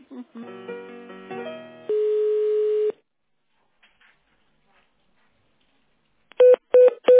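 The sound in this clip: Telephone dialing tones as an office call is put through to the accounting department: a run of stepped multi-tone beeps, a steady held tone, a pause, then three short loud beeps.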